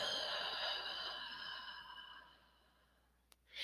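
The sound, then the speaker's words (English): A deep breath exhaled through the mouth during a relaxation breathing exercise. It is a soft, faint breathy rush that slowly fades out, followed by a tiny click and the start of another breath. “So you're going to close the eyes down. And we're going to start inhaling deeply into the belly. And exhaling out of the mouth.”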